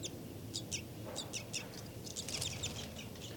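Flight call series from a captive bird in an enclosure cell: a faint run of many short, high, clipped calls over low background noise.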